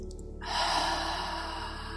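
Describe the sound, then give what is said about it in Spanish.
A deep breath drawn in through the nose during a breathing exercise, a soft, airy inhale that starts after a brief pause and holds steady for over a second. “Inhale. Inhala.”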